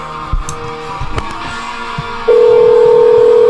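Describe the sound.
An outgoing phone call sounds a loud, steady tone that starts abruptly partway through and holds unbroken to the end, after a few soft clicks and rustles.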